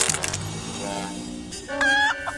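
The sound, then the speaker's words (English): A chicken clucks in a few squawking, throaty bursts, loudest toward the end, with no talk over it. “African chicken.”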